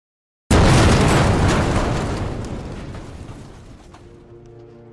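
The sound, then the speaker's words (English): TNT explodes in a video game: one sudden, loud boom bursts out of silence, then its roar decays slowly over several seconds into a fading low rumble. “driving Bad away from the egg just long enough for Sapnap to ignite TNT and...”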